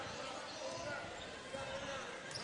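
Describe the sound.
A basketball is dribbled during a girls' game, with faint bounces set against steady crowd noise and a voice talking over the court sounds.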